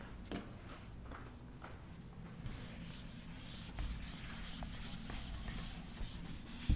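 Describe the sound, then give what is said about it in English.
Writing is erased from a board in a classroom-style lecture, heard as soft, quiet rubbing strokes that scrape along in an uneven rhythm with a few light taps. No one talks over it. “So let me erase this.”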